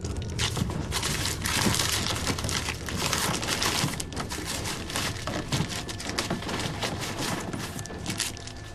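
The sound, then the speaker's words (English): Paper torn feverishly off a door, a dense, continuous crinkling and ripping that stays busy and fairly even for the whole stretch, with no talk. “then tears feverishly at the paper on the door”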